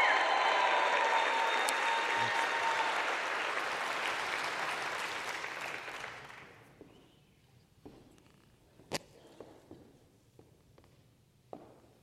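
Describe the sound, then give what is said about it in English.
Congregation applause welcoming a speaker at a New Year's church service, loud and sustained at first, then gradually fading over about six seconds into near quiet with a few scattered knocks and shuffles. “So with that, would you give a warm New Year's welcome to Ryan Kalasar?”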